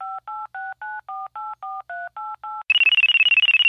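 Telephone keypad dialing: ten evenly spaced touch-tone beeps of differing pitch, then a loud, rapidly warbling electronic ring of an incoming call.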